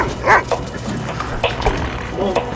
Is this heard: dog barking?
yes